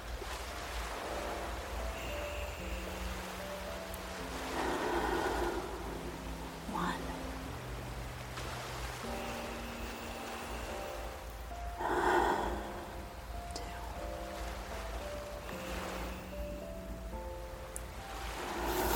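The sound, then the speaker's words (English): Slow deep breaths taken as a relaxation exercise, a few long airy swells of breathing rising and fading over a soft, sustained musical bed. “3 deep breaths.”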